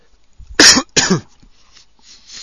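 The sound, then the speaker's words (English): Two sharp, loud coughs from a man with a phlegmy, congested chest, rough and chesty, the second following closely after the first, with only faint noise around them. “first cough for a while.”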